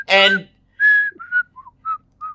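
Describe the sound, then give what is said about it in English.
A short whistled TV theme tune: a run of clear, mid-pitched notes of varying length, whistled alone with brief pauses between them. “I was attracted to the theme song, you know, the whistling theme song there”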